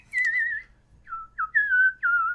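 A person whistles a tune in clear, pure, high tones: a long opening note, a pause, then several sustained notes and short slides, moderately loud and alone.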